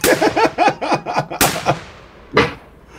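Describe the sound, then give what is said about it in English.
Gunshot sound effect fired repeatedly in place of a drum roll: a quick, loud volley of many shots, then two separate louder bangs with short gaps between. “Where's the drum roll? I don't have it here. I can just shoot the gun a bunch.”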